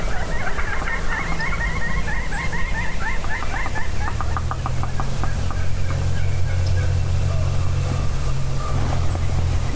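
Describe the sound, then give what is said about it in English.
An excited wild turkey gobbler gobbles far off with a rapid, rattling, warbling call early on. A steady low motor-like hum then carries on alone. “She's got a gobbler way far out, all excited.”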